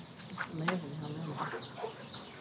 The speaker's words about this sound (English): there they are, baby chicks.